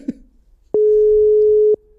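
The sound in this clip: A telephone busy tone from a call that was not picked up: one steady, mid-pitched beep lasting about a second, loud and clear on its own.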